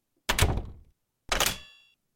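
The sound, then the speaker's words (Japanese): A front door being shut and locked at an apartment entrance: two sharp knocks about a second apart, the second carrying a brief metallic ring. No voices are heard. “ほら、上がって。鍵も閉めてね。”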